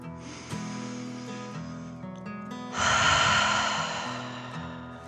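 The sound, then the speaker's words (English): A dragon's deep, breathy snort in a children's relaxation story, with a soft airy rush that swells into a louder, longer breath and slowly fades over steady sustained tones. “The dragon took a deep dragon breath in and out.”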